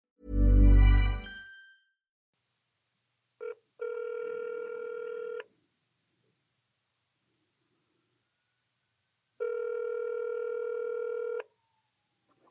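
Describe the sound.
A telephone call being placed: a short noisy burst, then a brief tone blip and two long, steady ringback tones separated by silence, with no voices.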